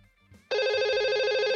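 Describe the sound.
A telephone rings with an incoming call. After a faint, quiet lead-in, a loud, bright electronic ring starts abruptly and continues steadily to the end with a slight pulsing.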